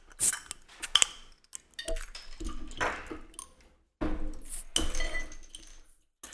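A glass bottle of coconut lime ale being opened gives a few sharp glassy clinks and handling rattles, separated by short pauses.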